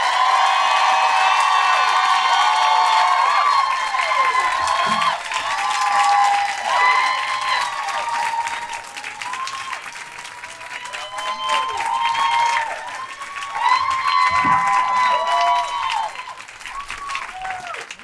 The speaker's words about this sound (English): Please welcome to the stage, with the kind of woohoos that would match that resume, the incredible Feminista Jones!